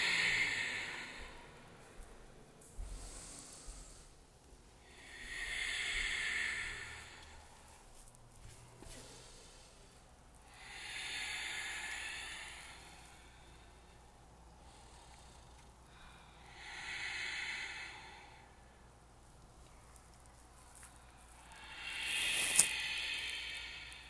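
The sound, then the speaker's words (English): Deep breathing in and out through the nose during a floor stretch, heard as a few faint, slow swells of breath at a steady, unhurried rhythm. “The breath in, stretch long. The breath out, dig deep into the floor.”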